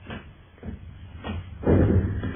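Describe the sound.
A door is shut in a radio drama: one muffled, heavy thud near the end, preceded by faint knocks and low rumbling, all fairly quiet.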